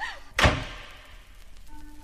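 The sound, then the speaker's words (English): A door being shut to lock it, one heavy thunk that decays quickly into a quiet background, with a faint steady tone appearing near the end. “Come on in so we can lock the door.”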